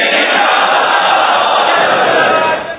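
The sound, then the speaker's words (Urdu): A large crowd loudly shouts Inshallah in unison at a religious gathering, a dense, steady roar of many voices that holds for about two and a half seconds before trailing away. “زوردار انشاءاللہ کا ہاتھ اٹھا کر نعرہ لگائیں کہ ہم بھی اس تفسیر کے سننے میں ضرور شرکت کریں گے”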